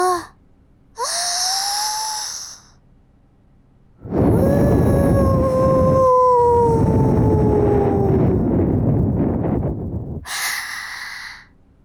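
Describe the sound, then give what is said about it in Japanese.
Strong breaths are blown into an ear as airy, rushing puffs: a shorter blow, then a long, forceful stream of air lasting several seconds with a faint whistling tone that slowly falls, and another breath at the end. “お耳の中に残ったちっちゃいのを飛ばしていくだけだね。今度は最初からすごく強く吹くよ。”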